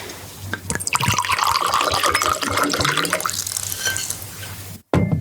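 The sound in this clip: Wine pours into glasses in a steady, gurgling stream, loud and bubbly throughout, then cuts off abruptly near the end.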